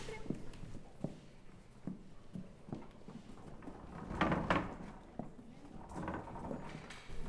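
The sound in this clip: A pony's hooves clip-clop quietly in an uneven, walking rhythm as it is led around with a rider, mixed with soft shuffling and low voices talking.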